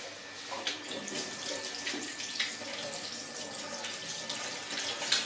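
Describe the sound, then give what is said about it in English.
Tap water runs steadily into a sink while hands are washed after kneading dough. It makes a continuous hiss with splashy bursts and small changes as the hands move under the stream. “So, we can wash our hands now.”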